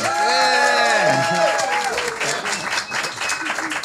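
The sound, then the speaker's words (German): Audience applause in a jazz club, dense steady clapping that carries through the whole clip, with a voice speaking over it during the first half. “Dürfen wir mal einen Applaus hören, bitte?”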